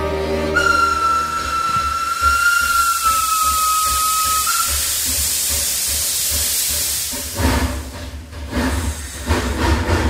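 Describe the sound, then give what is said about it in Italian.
Train running with a broad steam-like hiss; a steady, high whistle tone rides over the noise for about four seconds, then the hiss continues before turning into a rougher, rumbling clatter near the end. “Il treno va.”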